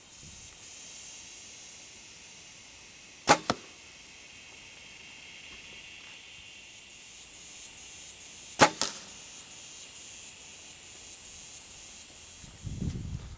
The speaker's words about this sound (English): That's how my bow's pretty much sighted in for standing shots. And the second shot's gonna be me sitting down.